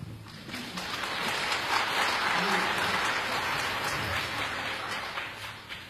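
Applause welcomes singers onto a concert stage: dense, steady clapping that swells after the first second, holds, then eases slightly near the end.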